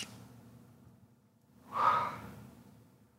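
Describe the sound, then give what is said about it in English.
A single deep breath drawn during a guided emotional-release meditation: a soft, airy rush that swells and fades over about half a second, fairly quiet and alone. “Take a deep breath.”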